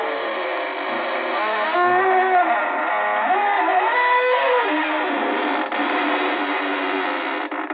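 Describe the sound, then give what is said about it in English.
A long, drawn-out creak of a door opening slowly, a wavering groan whose pitch slides up and down. It sounds alone, thin and narrow in tone, for several seconds. “This is your host to welcome you in through the creaking door.”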